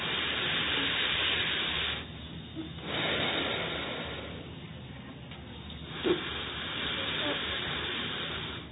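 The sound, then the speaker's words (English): Forceful breathing out through the right nostril in a breathing exercise: a few loud, rushing hisses of breath separated by quieter gaps. “Right hand, blow the right nostril. Inhale.”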